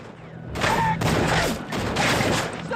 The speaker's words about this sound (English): The regulators open fire on the hut, peppering it with bullets.